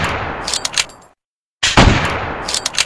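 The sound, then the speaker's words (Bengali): Pistol gunshots fired by a man at close range: a few sharp, loud cracks rise out of dense, noisy bursts, broken midway by a brief stretch of silence before another heavy blast. “মোহিত পিস্তল বার করে গুলি করতে যায়”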